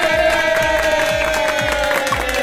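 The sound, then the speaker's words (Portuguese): Crowd cheering and clapping for a production team, a steady, unbroken wash of noise over a sustained tone and a regular pulse of low thumps. “Palmas pra minha produção aí, ó.”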